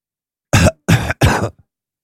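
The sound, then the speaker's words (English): A short, harsh cough breaks out in a few quick throaty bursts, loud and alone with no talk over it. “Cough out. Half a cough there”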